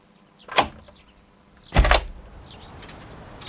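A front door is opened on a snowy morning by someone in pajamas fetching the newspaper, giving two brief clunks, the second louder, followed by a faint steady hiss.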